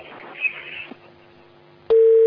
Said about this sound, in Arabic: قطع الاتصال